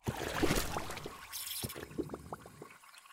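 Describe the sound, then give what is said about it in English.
Liquid is poured and trickled while drinks are being mixed. The sound is faint and splashy, with a scattering of small drips and clinks. “I'm going to go and make tasty and delicious drinks, and I'll be back with you in just a second.”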